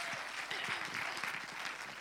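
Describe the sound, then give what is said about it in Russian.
Fairly faint, continuous clapping from an audience during a bilingual sermon, an even patter with no clear breaks. “Давайте похлопаем. Let's clap for our friend Louis.”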